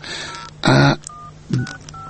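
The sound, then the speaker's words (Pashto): Telephone keypad tones sound as a number is dialed: a few short, steady dual-tone beeps separated by pauses, with brief louder noisy bursts between them. “چې دا نمره یې راولم صفر اوه اته”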